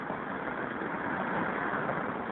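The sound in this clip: Street traffic rumbles beside a curbside payphone at Northern Boulevard and 41st Street, a fairly faint, steady blend of engine and road noise with no distinct passing events.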